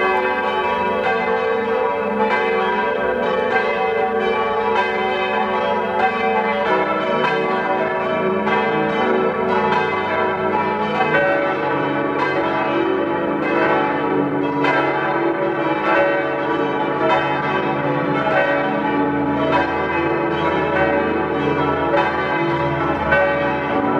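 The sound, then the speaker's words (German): Cathedral bells of St. Jakob in Innsbruck ring out at noon in a full, loud peal, with many overlapping strikes keeping up a dense, steady ringing for the whole stretch and no voices. “Es ist 12 Uhr. Sie hören die Glocken aus dem Dom zu St. Jakob in Innsbruck.”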